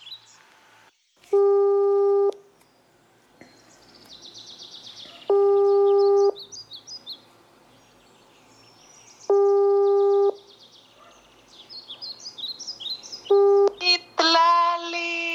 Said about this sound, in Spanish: Bueno, a esta persona le vamos a marcar, vamos a ver si tenemos suerte.